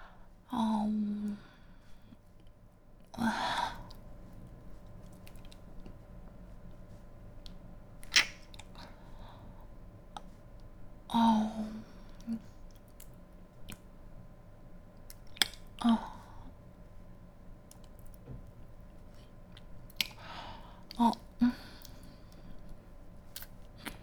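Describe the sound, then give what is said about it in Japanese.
Wet licking and mouth sounds of a close-up licking session to re-wet something that had dried. Scattered soft, moist smacks come in a few separate bursts with quiet gaps between them. “ちょっと乾いちゃったからね、またちょっとなめなめなめなめして、よっこいしょ、濡らしていきたいと思います。”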